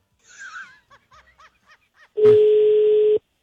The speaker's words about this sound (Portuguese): Deixa eu ligar. Só pra perguntar o preço, só.